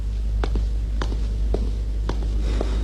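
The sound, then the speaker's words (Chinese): Footsteps of someone walking away, a handful of soft, evenly spaced steps over a steady low hum. “我没事了，我走了。”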